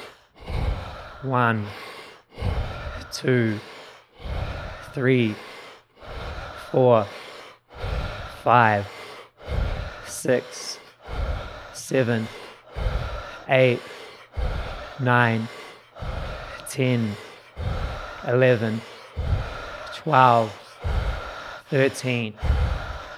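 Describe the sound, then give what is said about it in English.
Deep breaths from a guided breathing exercise repeat in a steady, brisk rhythm, with many cycles of sharp inhales and voiced, sighing exhales running continuously. “So we'll go for our 51 breaths in 3, 2, 1. Let's get it.”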